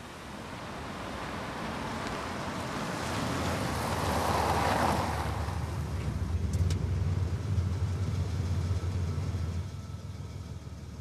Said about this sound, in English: The car appears over the summit of a hill and moves down a wide, tranquil residential street, an avenue of spindly trees rendered ghostly white in the moonlight. The headlights gleam on the tarmac as the car pulls up at the side of the street.